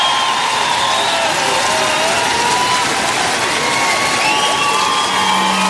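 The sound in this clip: Loud, dense applause and cheering from a concert crowd in Lille, a continuous roar of clapping with shouting voices running unbroken through the whole stretch.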